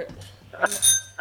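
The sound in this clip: A bell is rung a few times with brief, bright metallic dings, short and sharp, among quieter background sounds.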